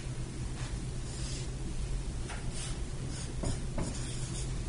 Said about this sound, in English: So I'm drawing on the board a timeline.